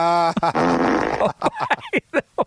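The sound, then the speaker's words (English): A fart sound effect drop blares out as a loud, raspy sputter lasting about a second after a short buzzing tone, followed by a few brief choppy bursts. “teed up his own fart drop there. That's the only reason he made that line.”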